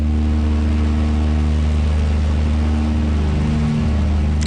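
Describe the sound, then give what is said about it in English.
Engine drone of a Douglas C-47 Dakota aircraft in flight, a loud, unbroken low roar with a steady hum that holds even throughout. “And finally, it was time to go up in the C-47 or the Dakota.”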